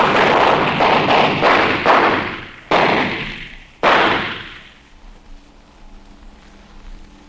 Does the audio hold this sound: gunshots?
yes